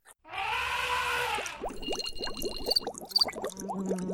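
A short homemade jingle played at the push of a button opens with a bright, sustained harmonic swell. It then breaks into a rapid flurry of bubbling, chirping blips, moderately loud, with no voices.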